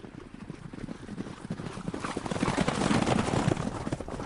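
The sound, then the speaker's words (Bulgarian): Many overlapping hoofbeats as forty horsemen ride through a long, narrow, corridor-like passage into a small fortress with huge mud-brick walls near Termez, Uzbekistan; the dense clatter grows steadily louder toward the end. “Четиридесет конници влизат в малката крепост през дългия тесен като коридор с водест ход и спират в квадратния двор зад огромните кирпичени стени.”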